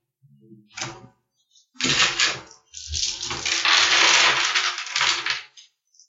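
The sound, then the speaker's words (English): A big pile of dice clattering on a table during a tabletop role-playing game: a short rattle, then two long, loud bursts of tumbling, clicking dice. “A big old pile of dice.”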